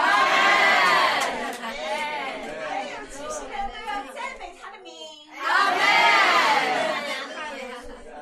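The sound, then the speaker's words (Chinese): A church audience shouts praise to God, many voices raised together in loud, sustained cheering that dips briefly near the end before surging again. “普天下当向耶和华欢呼。 懂得向神欢呼的那民便是有福的。”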